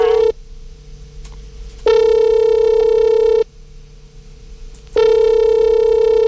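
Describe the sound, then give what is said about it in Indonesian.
Ringback tone of an outgoing telephone call: long, steady, mid-pitched tones, each lasting over a second, repeating with pauses of similar length between them, with no voices. “Oke, kalau gitu kita akan coba hubungi dulu ya Devinya, semoga diangkat ya.”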